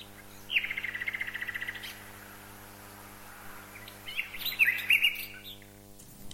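A nightingale sings in bursts of rapid, bright trilled chirps, then pauses and returns with a louder, more varied run of sharp whistled notes.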